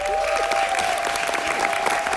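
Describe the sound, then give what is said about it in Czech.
A theatre audience in Kraków applauds at the end of a performance, dense continuous clapping with a faint sustained tone beneath. “I diváci v Krakově na konci představení dlouho tleskali.”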